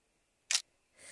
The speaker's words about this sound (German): Okay, ich habe ein Foto gemacht.